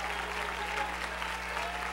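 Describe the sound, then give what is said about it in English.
Church audience clapping their hands together, a soft, steady patter of many hands that stays even from start to finish, with a low constant hum underneath. “Clap your hands unto him and bless him.”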